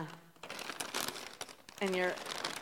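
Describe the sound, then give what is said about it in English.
Grocery bags crinkling and rustling as they are carried from a car, in irregular crackling bursts, with a voice briefly rising over the rustle. “If you get out of your car and you're the type of person that tries to get all your groceries, it might look something like this, you know. Kind of get your groceries”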